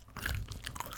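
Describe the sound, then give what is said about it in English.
Gum being chewed up close: faint, quick wet smacks and soft crunchy clicks packed into about a second, with no talking. “but now I have to finish this piece of gum. Because I just started it.”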